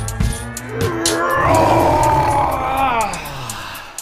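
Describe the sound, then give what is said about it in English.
A person's voice imitates a big lion roar: one long, loud, throaty growl lasting about four seconds, swelling in the middle and trailing off at the end. “I felt so powerful, I just had to roar.”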